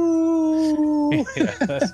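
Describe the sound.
A dog howls in one long, steady, pitched note that drops at the end, followed by a few short, broken yips and whimpering cries.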